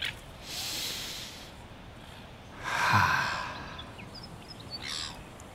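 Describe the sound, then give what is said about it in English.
A big breath in and out taken together by people: a soft, airy inhale followed after a pause by a longer, stronger exhale over a steady background hiss. “Let's take a big breath in and out together.”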